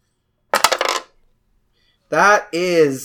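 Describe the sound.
Dice rolled for a tabletop role-playing game make a quick rattling clatter of small hard impacts in one short burst, followed after a pause by a voice.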